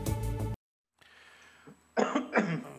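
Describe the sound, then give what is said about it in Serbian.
Coughing after choking on Uruguayan grapes: two harsh, breathy bursts close together at the end, after a short voiced sound and a quiet pause. “Izvini, zagrcao sam se na ovaj grožđe iz Urugvaja.”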